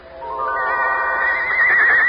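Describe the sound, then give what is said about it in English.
One white coach horse lets out a long, shrill whinny, a loud sustained harmonic cry that climbs slightly in pitch and wavers toward the end. “One golden coach and 6 white horses.”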